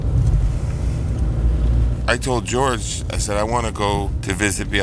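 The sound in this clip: A car driving along a road past forests and fields gives a steady low rumble throughout, with a voice talking over the engine and road noise in the second half.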